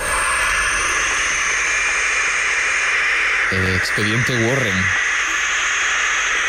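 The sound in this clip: Barn owl chicks hissing: a harsh, continuous snake-like hiss that fills the whole stretch, while a voice speaks briefly over it.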